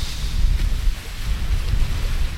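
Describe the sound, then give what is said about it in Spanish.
Water from the Alqueva dam rushes down the Guadiana river against the bows of fishing boats moored in port during a storm. A continuous, loud, low rumbling roar with wind noise. “No sé si se escucha de fondo el agua que viene bajando por el Guadiana, viene de esa presa de Alqueva, escucha.”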